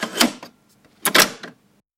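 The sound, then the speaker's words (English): Mechanical clunks from a cassette player's start and stop controls: two short, sharp clattering bursts separated by a stretch of near silence. “you'll hear that click, right, of like the start and stop of the cassette player. And so here's what it sounds like.”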